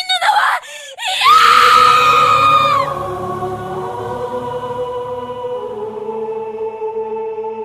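A girl screams emphatically in an anime film: a few short vocal bursts lead into one loud, sustained, high-pitched scream of about a second and a half, which breaks off into lingering tones that slowly fade.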